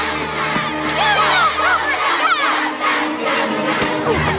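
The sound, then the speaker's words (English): Loud shouting and jeering from a crowd of school kids chasing a boy out of the gates: many overlapping young voices yelling continuously without a break. “One boy throws a stone at Lee, and he dashes out of the gates chased by the baying school kids.”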